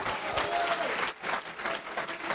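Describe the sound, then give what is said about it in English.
A church audience clapping their hands during a service, a thick, continuous patter of applause with a brief dip about midway before it picks up again. “Let's clap our hands unto him.”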